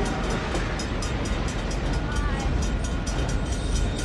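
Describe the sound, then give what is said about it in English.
Steady rumble of a train pulling into a small-town station, a dense, even roar that holds at a constant level throughout, with no distinct wheel clacks or horn standing out. “the train pulls in”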